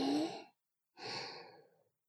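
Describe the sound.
Slow, deep breathing, heard alone: a soft airy inhale of about half a second, a brief silence, then a longer, gradually fading exhale.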